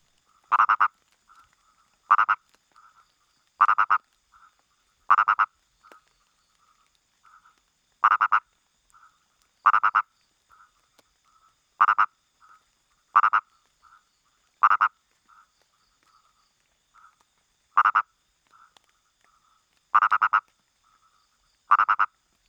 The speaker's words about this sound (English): This is a frog that's actually currently underground, which is another amazing thing. These guys are, they don't even bother coming out of the ground to do their calling.